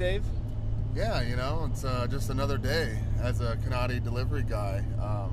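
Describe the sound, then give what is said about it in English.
Engine hum and tyre rumble from a vehicle on the road in Nebraska, a steady low drone running under two men talking throughout. “That's the hum of the engine in the background, the sound of rubber wheels purring. Yeah, tearing up the asphalt.”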